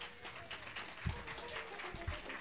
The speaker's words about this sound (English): So please give her a round of applause also.